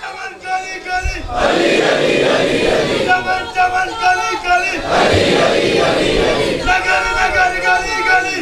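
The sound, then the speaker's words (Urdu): A crowd at a gathering chants slogans in call and response. A single voice leads, and loud massed roars from the crowd answer it in two big surges, with a few more voices joining in between. “میں نعرے لگاتا ہوں کیونکہ میں آپ کے جوش کو سمجھ سکتا ہوں، ادھر سے بھی نعرے لگ رہے ہیں، ادھر سے بھی میں جانتا ہوں آپ پرجوش ہوئے ہیں”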